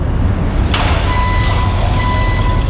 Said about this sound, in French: C'est le camion de l'entreprise voisine qui part en livraison. C'est agaçant, non?